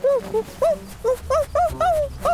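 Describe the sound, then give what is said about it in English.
A baby puppy whimpers in a string of short, high, wavering whines. The whines are closely spaced and fairly loud, with no talk over them. “In the end, he became a baby puppy.”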